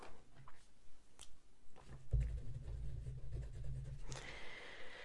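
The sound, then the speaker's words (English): Faint scratching of a pen writing on paper during an ASMR body-measuring role-play, with soft, irregular strokes and a low rumble partway through. “I'm gonna write that down.”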